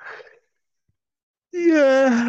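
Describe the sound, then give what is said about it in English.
A person gives a loud, drawn-out yawn whose voiced tone slides downward in pitch. It comes after a brief breathy sound and about a second of silence. “Big yawn, baby.”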